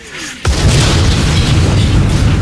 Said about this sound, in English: At that exact moment, in the Mood was hit, an 88 shell passing straight through the turret.